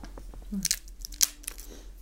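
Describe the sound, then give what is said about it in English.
Communion bread is broken and chewed, giving a few crisp crunches and snaps separated by quiet gaps over a low, steady hum. “So let's take communion together, shall we? Let's take the let's break the bread, let's drink the wine, and take a moment to remember what Christ has done for us.”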